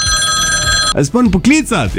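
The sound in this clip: A telephone rings as a call is placed: a steady, bright ringing tone runs for about the first second, then it cuts out and a voice starts talking.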